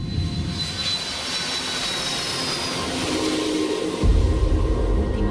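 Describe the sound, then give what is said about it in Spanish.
Jet engines of an Iberia airliner give a steady, broad roar with a faint high whine, growing heavier and deeper in the low rumble near the end; no voices are heard. “Hoy nos hemos subido de nuevo a un avión de Iberia, pero esta vez después de darle al play.”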